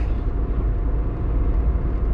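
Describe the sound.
A car driving along toward a stop sign, heard as a steady low engine and road rumble that stays even throughout.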